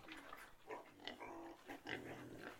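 A pig grunting and snorting in a string of low, rough grunts that come in irregular bursts, quiet throughout with no talk.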